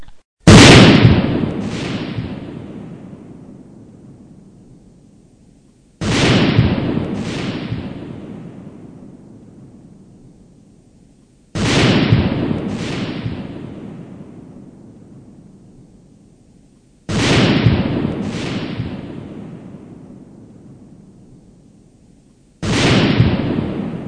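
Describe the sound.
Grenade explosions in a video game: five loud booming blasts at regular intervals, each opening with a sharp double crack and trailing into a long, fading rumble.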